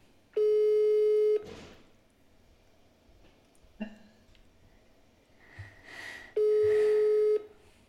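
Ringback tones of an outgoing phone call that goes unanswered: two steady mid-pitched beeps, each about a second long, separated by a long quiet gap with faint rustling and small knocks.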